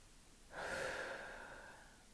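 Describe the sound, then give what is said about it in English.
A person takes one long breath as part of a guided breathing exercise. It starts suddenly, then fades out slowly, soft and heard alone. “Anyway, inhale. And exhale.”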